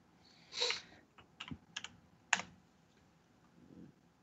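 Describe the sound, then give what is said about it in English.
Sparse typing on a computer keyboard: a few faint clicks and short bursts of keystrokes at uneven intervals, with quiet pauses between them and no voices. “I typed it in wrong.”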